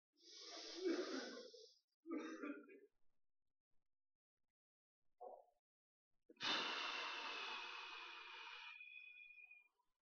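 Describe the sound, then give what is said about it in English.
A group breathes in deeply and exhales together during a guided breathing exercise in a sermon. A couple of short breathy bursts come first, then a long, loud, drawn-out exhale with a faint wheezy edge. “We're going to breathe in courage, and we're going to exhale fear. Ready? Together. Remember on 5. Y'all do this with me.”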